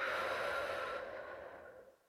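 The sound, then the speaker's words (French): A long, deep breath out: a steady airy exhale that gradually fades over about two seconds, heard alone without talking. “je vais t'inviter à prendre une grande inspiration, peu importe où tu es et ce que tu fais. Et une grande expire”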